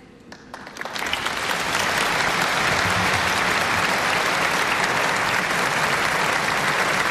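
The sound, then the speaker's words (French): Applause from a crowd at a prayer service as a bishop embraces the pope. Thin scattered clapping quickly swells into loud, dense, sustained applause that continues to the end. “On entend Monseigneur Ballot, archevêque, évêque de Metz, qui maintenant va donner l'accolade au pape Léon XIV sous les applaudissements”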